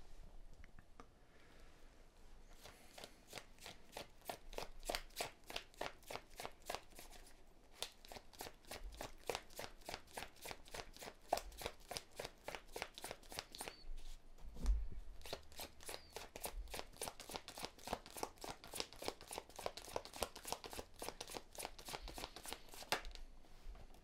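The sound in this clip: Tarot cards are shuffled and drawn in a fast, even run of soft flicks and riffles that continues for most of the time with a short break early on. The sound stays faint and steady.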